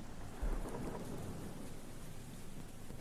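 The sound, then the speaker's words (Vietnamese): A thunderstorm with rain brings a steady hiss of falling rain and one low, heavy thunder rumble that starts early and stays under the constant downpour. “bất chấp ở trên bầu trời, sấm sét mưa gió vẫn cứ nổ đùng đoàng, mây đen vẫn cứ vần vũ.”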